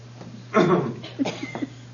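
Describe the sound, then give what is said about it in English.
A man gives one harsh, raspy cough after taking a cough drop, followed by a few softer, short throat sounds over a low, steady hum. “Doing just what it's supposed to do, making me cough.”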